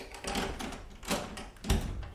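A hotel room door being unlocked with a key gives a few dull clunks and rattles, the sharpest one near the end, over a steady low rumble.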